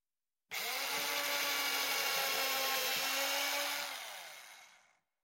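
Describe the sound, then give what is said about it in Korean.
A mini electric drill bores screw holes in wood with one loud, steady, high whine lasting several seconds. The whine tapers off as the motor winds down at the end. “연필로 나사 위치를 표시하고 미니 전동 드릴로 구멍을 뚫었습니다.”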